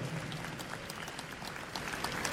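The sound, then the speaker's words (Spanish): Congregation applause at a church service, a faint, dense patter of many hands clapping continuously with scattered sharper claps standing out. “Un aplauso a Jesucristo, nuestro Señor.”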